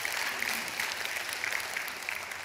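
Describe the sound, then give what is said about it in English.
Clapping from a church audience during a sermon, a continuous even patter of many hands at moderate loudness for about two and a half seconds, with no talk over it. “It's okay to clap at church. It's holy.”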